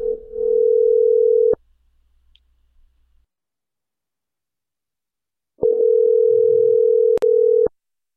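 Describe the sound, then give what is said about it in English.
A telephone dial tone sounds before a prank phone call: a loud, steady hum in two stretches separated by several seconds of silence, each ending with a sharp click. “Well, let's make another prank phone call and see what happens.”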